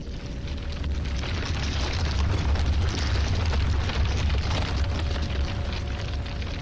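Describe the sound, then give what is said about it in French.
An explosion sound effect standing for the Big Bang, a dense, roaring wall of low-heavy noise that stays loud and unbroken for several seconds, with no voices. “Sa chaleur et sa densité sont extrêmes. Et elle explose.”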